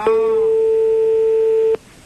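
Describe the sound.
A telephone ringback tone sounds as a game show calls a contestant back, a single long, steady, mid-pitched beep held for nearly two seconds before cutting off abruptly.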